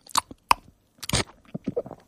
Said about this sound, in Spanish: mira, me lo voy a beber de trago.